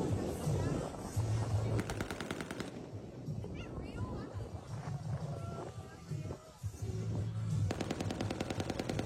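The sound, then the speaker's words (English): Rapid automatic gunfire as Army Rangers fire blank rounds from automatic weapons in a sanctioned mock sea battle at Crab Island during a pirate festival, heard as two long rattling bursts separated by a steady rumble of background noise and voices. “the Army is investigating allegations a group of Rangers fired a bunch of blank rounds from automatic weapons at Crab Island a week ago. That incident was caught on video and posted to social media.”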